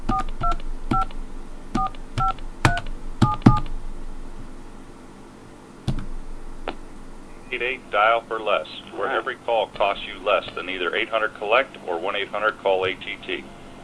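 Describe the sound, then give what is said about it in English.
Telephone keypad tones sound as a number is dialed: several quick beeps in short clusters, then a lone click. A voice then speaks steadily through the rest. “Maybe I dialed wrong.”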